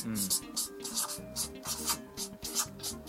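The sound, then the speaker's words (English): Pens scratching on a paper pad as people write down answers, a steady run of many short rasping strokes in an uneven rhythm over a low background. “This is good for the podcast, isn't it? Just hearing the sound of us writing.”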